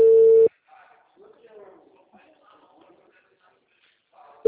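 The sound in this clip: Ringback tone of an unanswered phone call: a loud, steady mid-pitched tone at the start, a long pause filled with faint murmuring, then the same tone starting again at the very end.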